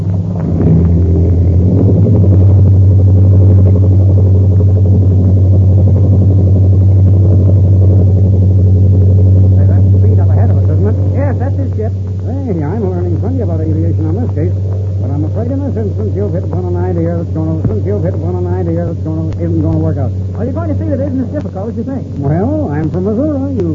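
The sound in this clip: An airplane takes off down a runway: a loud, steady low engine drone and hum dominate the first half, then ease off as people talk over the continuing rumble.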